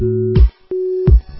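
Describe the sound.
Telephone busy signal: loud, steady, mid-pitched beeps, two of them, each cut off abruptly and separated by a short silent gap.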